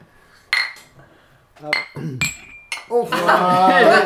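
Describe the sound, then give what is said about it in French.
Glasses of beer, a Starkbier Bad Boy and a Mikkeller Crooked Moon Tattoo, clink in a toast: a few bright, ringing taps, followed by people talking. “J'ai trinqué avec la petite poire, on va en boire. J'ai trinqué avec la poire aussi”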